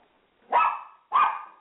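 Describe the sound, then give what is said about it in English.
Two loud, mid-pitched barks from a dog in a studio, each short and sharp with a quickly fading tail, spaced a little over half a second apart, with no talk over them. “As you can hear in the background, I have a dog, and he's in the studio with us.”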